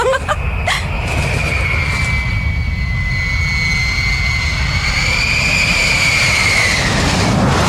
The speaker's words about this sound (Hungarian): Amerikai bombázó. Egy bombázó? Igen, harci gép. Talán a csatatérre tart?